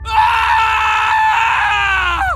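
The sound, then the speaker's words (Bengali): A man lets out a loud, sustained scream that holds a strained, steady pitch for about two seconds and sags slightly as it cuts off, over a low droning rumble. “আর নিজের অজান্তেই গলা চিরে বেরিয়ে আসে চিৎকার।”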